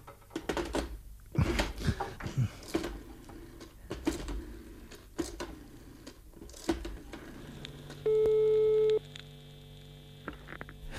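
A telephone call is cut off, with clicks and crackling on the line before a single steady electronic tone sounds for about a second over a faint hum.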